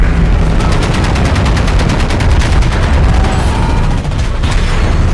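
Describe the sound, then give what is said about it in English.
Ship's guns fire during a naval battle, a loud sound effect of rapid, continuous gunfire with many closely spaced shots and heavy booms running without pause. “Auriga's voice bellows over the loudspeaker, "Steady, men, keep firing."”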